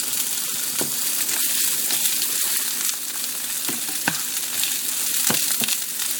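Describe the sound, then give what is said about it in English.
Onion sizzles loudly in a hot pan as it is tossed around. A steady, dense frying hiss runs throughout, broken by a few sharp clicks and scrapes. “I'm going to give this onion a bit of a toss around the pan.”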